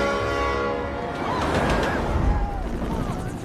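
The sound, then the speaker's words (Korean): A moving train rumbles steadily throughout, with its continuous low noise partly masked by voices speaking over it. “달리는 기차를 쫓아가고 있는 거야.”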